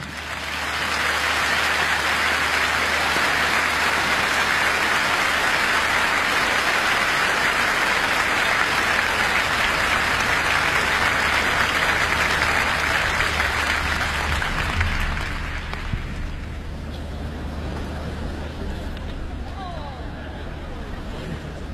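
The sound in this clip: Concert audience applause welcoming opera singers, their conductor and the BBC Symphony Orchestra and Chorus: a dense, even roar of clapping that holds steady for about fifteen seconds, then thins and fades away.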